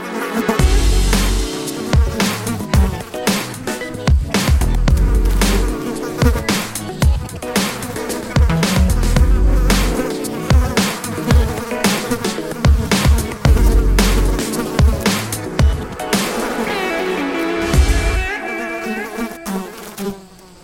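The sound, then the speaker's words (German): Buzzing of a fly, a wavering insect drone that swells and dips in loudness with many brief breaks, continuing for about twenty seconds with no talk. “Welches Tier suchen wir? Ich sag es dir. Es ist die Fliege.”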